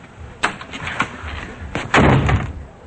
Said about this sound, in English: Melvin turns away, slamming the door on Simon